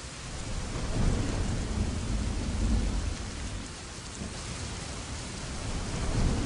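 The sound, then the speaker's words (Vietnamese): A thunderstorm with strong wind and rain lashing a glass window: a dense, steady roar of rain with low rolling thunder rumbles that swell and ease several times. “Ngoài cửa sổ đột nhiên nổi gió to, bão ập đến, nước mưa như roi da quật vào cửa sổ thủy tinh.”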